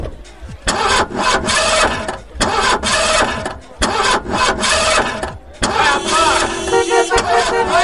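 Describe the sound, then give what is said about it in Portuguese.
A sports car engine of nearly 300 horsepower, like the one driven in Magnum, starts and revs, roaring loudly in long surges broken by a few short pauses. “300 cavalos. Vai de 0 a 100 em menos de 6 segundos. Aí eu não acredito, você tem uma igualzinha do Magnum. Ai meu Deus, eu sempre quis andar numa máquina dessas.”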